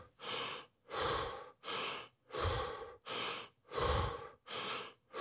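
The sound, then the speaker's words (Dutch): Deep, rhythmic breathing from a person doing breathing exercises while lying in bed in the morning, heard as a steady run of loud, airy breaths with short pauses between them and no talk. “begint hij eerst met ademhalingsoefeningen, nog liggend in zijn bed.”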